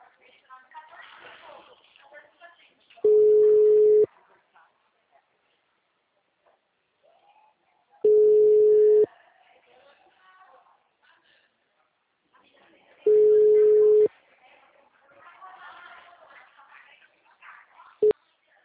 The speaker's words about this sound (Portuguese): O número chamado está ocupado. Tente novamente mais tarde.